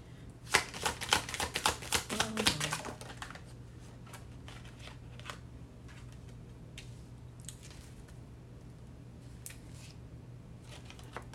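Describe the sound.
Tarot cards being shuffled: a rapid run of crisp riffling clicks for about two seconds, then scattered soft taps and rustles as the deck settles.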